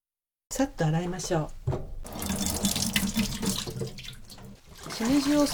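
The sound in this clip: Running tap water pours steadily while trimmed shimeji mushrooms, split into small clusters, are washed in a sink, a continuous hissing splash that swells and fades as the flow is disturbed.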